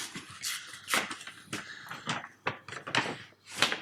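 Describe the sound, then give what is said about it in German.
A paper envelope is opened with a few irregular crinkly rustles and crackling bursts of varying loudness. No voices are heard. “Ich würde diesen Umschlag jetzt öffnen.”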